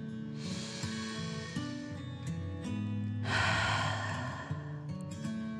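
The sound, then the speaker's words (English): Deep breathing during a children's bedtime relaxation exercise: a long, soft, airy breath in, then a louder rushing breath out, set over gentle sustained music. “Take another deep breath in and out.”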